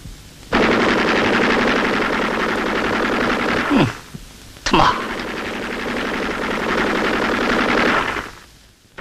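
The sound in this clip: Machine gun fire in a battle scene as covering fire for soldiers crossing a hill: two long, loud, sustained bursts of rapid shots, broken by a brief pause.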